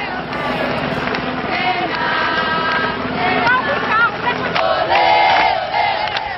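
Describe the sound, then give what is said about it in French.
A Brazilian crowd sings together in the streets during a funeral tribute as a fallen racing idol's coffin passes. Many voices blend into one loud, continuous chant that holds steady throughout, with no single voice standing out. “Quand les Brésiliens chantent et applaudissent pour vaincre leurs larmes.”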